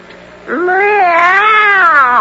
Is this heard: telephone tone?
no